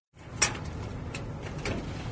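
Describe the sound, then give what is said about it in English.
A stuck lock on an outdoor cellar door being tried: a sharp metallic click near the start, then continuous rattling and scraping as the lock is worked, with no voices. “The lock to the outdoor cellar is stuck. C'est bizarre. I will try again.”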